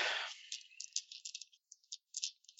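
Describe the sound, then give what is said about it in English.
Many dice rattle as they are rolled for a tabletop game, a quiet, high clattering that starts as a dense shake and breaks into scattered bursts of clicks. “I got a shit ton of dice for this.”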